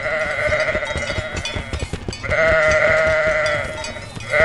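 Goats bleating, loud and close, with two long wavering bleats, the first fading out before the second starts, over a busy patter of background sounds.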